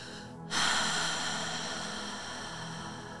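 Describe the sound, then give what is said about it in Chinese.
A deep exhale through the mouth during a forward-bend breathing and stretching exercise: a breathy hiss starts abruptly and slowly fades over about three seconds. “准备好，深深的吸气，用嘴巴大口吐气。”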